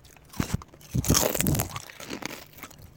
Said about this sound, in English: Should we do some ASMR? Oh, yeah. No, here. Shove some more in your mouth. Shove some more in your mouth. Well, I got a big handful.